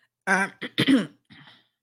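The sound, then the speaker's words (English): A few hoarse, voiced coughs and throat-clearing sounds from someone still recovering from the flu. A loud harsh burst comes first, then two quick rough ones, then a fainter, breathy final cough. “I'm still fighting the cough a little bit from the flu.”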